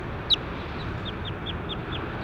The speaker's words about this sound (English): That was bird three.